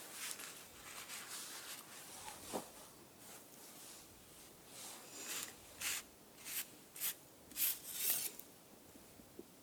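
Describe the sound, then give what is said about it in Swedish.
A card drawn from a hand-drawn deck makes soft rustles, scrapes and flicks. The sounds are faint and get busier and sharper toward the end, with no talk. “det får du dra i den här kortleken då.”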